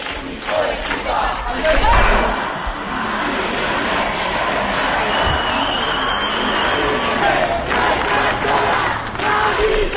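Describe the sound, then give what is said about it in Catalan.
Hundreds of neighbours shouting and chanting while protesting an eviction in Vallecas, Madrid, by an investment fund: a dense, continuous crowd roar with many voices throughout and occasional louder cries. “Són alguns dels sons del dia d'aquest matí a Madrid, al barri de Vallecas. Un fons d'inversió ha executat el desnonament. Centenars de veïns han intentat impedir-ho.”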